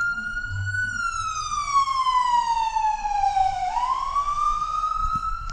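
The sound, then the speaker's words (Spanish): Siren from a police car or ambulance passing right alongside on a city street, loud and steady, its wail sliding slowly downward in pitch for several seconds before sweeping back up, with a low traffic rumble underneath. “nos está pasando una patrulla o una ambulancia aquí al lado y se oye bastante, bastante intenso. Miren, escuchen ustedes.”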